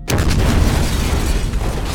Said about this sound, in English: Cruiser's turbos are firing, Skek said over the speaker.